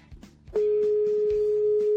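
A steady single-pitch telephone tone sounds while a call is placed to the traffic office of the Spanish Guardia Civil in Málaga. It cuts in loud after a faint rustle and holds unbroken to the end.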